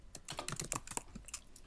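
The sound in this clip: Typing on a computer keyboard to search for a Magic: The Gathering Online card: many quick, irregular key clicks in a steady run, faint and with no voices.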